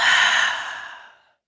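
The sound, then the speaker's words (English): One deep, breathy exhale during a guided belly-breathing exercise. It starts strong, then thins and fades over about a second into silence. “This time I want you to fill your belly all the way up with that air. Big inhale, hold for 3, 2, exhale.”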